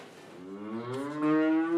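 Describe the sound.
A dairy cow in a milking parlour lets out one sustained, deep moo that grows louder toward the end.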